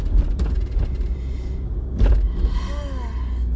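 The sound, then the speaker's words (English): A car drives along the road with a steady low rumble and broad road noise, swelling briefly louder partway through; no one speaks. “I'm driving to Target right now.”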